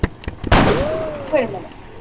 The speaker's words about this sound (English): Dang it! I shot you and I didn't even mean to.